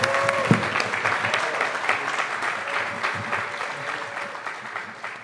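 Audience applause for the band Undercover at the AudioFeed festival: a dense, steady wash of clapping that runs the whole time, easing off slightly toward the end.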